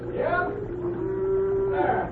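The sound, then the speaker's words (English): A cow moos as a herd of cattle is driven down to a bridge: a single drawn-out, low, lowing call lasting about two seconds that swells at both ends. “Cy Brannan is rustling his own cattle. Or rather, the cattle of the company for which he works. He drives them down here to the bridge”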